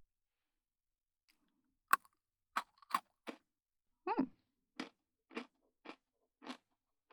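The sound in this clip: Sharp, crisp crunches of someone biting through Pocky biscuit sticks, close and quiet, a series of about ten separate bites at a fairly steady pace with silence between them.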